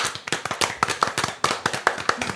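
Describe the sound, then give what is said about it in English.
Sharp hand claps in a rapid, fairly even rhythm, many crisp strikes in quick succession with no talk. “Hand clap.”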